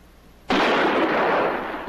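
A single loud gunshot from a gun: one sharp blast, followed by a dense roar of noise that holds steady to the end without fading.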